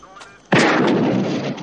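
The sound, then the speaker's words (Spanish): A single loud gunshot is fired at a police radio during a roadside police stop. A sudden sharp blast is followed by sustained harsh noise lasting about a second before it eases slightly. “Dispara a la radio.”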